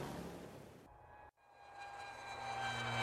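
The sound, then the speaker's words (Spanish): An airplane engine drones with a broad, steady rumble, cut off for a split second before resuming and swelling louder toward the end. “Este es un avión. Lleva gente a muchos lugares diferentes.”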